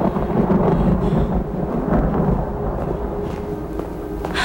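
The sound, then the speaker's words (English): Thunder from a storm over a city rolls as a loud, deep, continuous rumble that eases slightly toward the end. “Lightning illuminates the corridor as a thunderstorm moves in over the city.”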